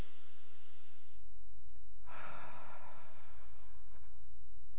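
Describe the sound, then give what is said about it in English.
One deep breath rises softly out of a quiet background as a church audience breathes deeply together, a single airy, breathy surge swelling midway and then fading. “Everybody do this right now. I want you to breathe really deeply.”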